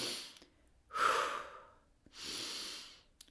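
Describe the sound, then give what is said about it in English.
Two long breaths from a deep breathing exercise, one drawn in and one let out, both soft and airy with a brief pause between them and no talk. “one really good one is I picture a box with every inhale and exhale”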